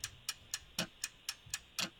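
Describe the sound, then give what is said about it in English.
A quiz game's 60-second countdown clock ticks in a steady, even rhythm of sharp, crisp clicks, about four per second, alone without any voices. “We're going to put 60 seconds on your clock. Here we go.”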